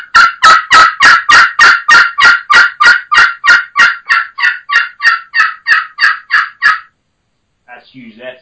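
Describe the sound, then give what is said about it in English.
A turkey pot call with a crystal surface, played with a striker, gives a long, rapid, evenly spaced run of many sharp, crisp yelps. The yelps grow slightly softer through the second half before stopping, and a faint brief sound follows. “But the Power Crystals usually has a very crisp, clean, higher pitch sound to it.”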